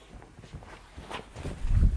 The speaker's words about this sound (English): Alright, walk over there for me,